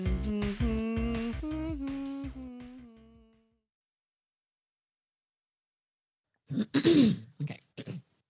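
A person clearing a mucus-filled throat: after a stretch of silence come a few rough, gravelly bursts, the first long and forceful, the last two shorter and quieter.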